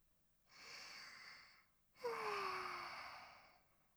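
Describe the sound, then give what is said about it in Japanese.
Two deep breaths taken together in unison: a long, soft breath, then a louder, longer sigh-like exhale that carries a faint voiced tone falling in pitch. “一緒に深呼吸の息合わせ、せーの”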